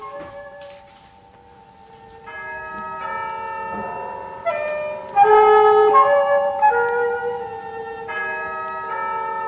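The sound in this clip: A Christmas bell in a café rings with several clear metallic strikes. Its bright tones overlap and sustain, swelling louder midway and then lingering as they fade, with no talk.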